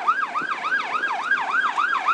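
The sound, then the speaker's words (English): Emergency vehicle sirens approach over a bridge with a fast, repeating rising-and-falling yelp. The cycles follow each other quickly and evenly at a moderate, steady loudness, with no voices. “You can hear some more sirens coming in front of me, I think, coming over the bridge.”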